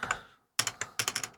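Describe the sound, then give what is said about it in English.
Keys clack on a computer keyboard: a couple of soft taps, a short silent pause, then a quick, uneven run of many sharp clicks, fairly faint and with no voices. “I gotta learn how to type. All right, there we go.”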